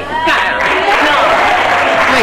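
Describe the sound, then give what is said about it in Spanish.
Applause from a large group of adults starts abruptly after a brief pause and continues as a steady, loud wash of clapping, with voices calling out over it. “Y el aplauso, vale, de un montón de adultos.”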